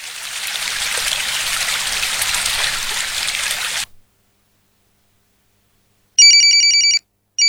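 Telephone ringing: a steady rushing hiss cuts off abruptly and, after a silence, a bright electronic trilling ring sounds in one full burst before a second burst begins.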